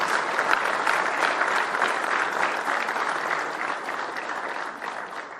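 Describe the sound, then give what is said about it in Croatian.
An audience at a Bosanska Krupa city council award ceremony applauds the 17 September plaque recipients, with dense, steady clapping from many hands that continues throughout and eases slightly toward the end. “Zamolit ću za još jedan aplauz i čestitke za dobitnike plakete 17. septembar.”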